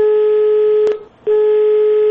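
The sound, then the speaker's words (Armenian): A telephone dial tone heard while placing a call during a live broadcast: a loud, steady hum-like tone breaks off with a click for a moment, then returns unchanged. “Հիմա փորձենք հենց ուղիղ եթերում զանգահարել”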